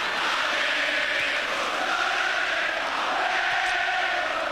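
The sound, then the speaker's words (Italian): Football fans chant "Ale, forza Doria" from the Gradinata Sud during a Sampdoria–Genoa match, a dense, steady roar of many voices that holds unbroken and loud throughout. “Ale, forza Doria, Ale, cantano i tifosi nella Gradinata Nord, nella Gradinata Sud, chiedo scusa, questa sera.”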